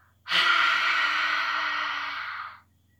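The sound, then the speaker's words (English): Deep breathing in through the nose and out, heard as one long, airy rush of breath about two seconds long, steady and fairly loud before trailing off into quiet. “Breathe in through your nose. Hold it. Now breathe out.”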